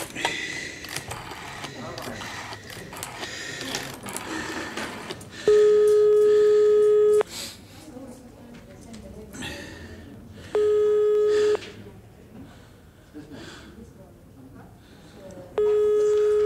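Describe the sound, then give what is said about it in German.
A restaurant telephone rings unanswered after being dialled: three long, steady, buzzing ring tones with even gaps, following several seconds of busy rattling clicks. “Kann ich das Telefon benutzen?”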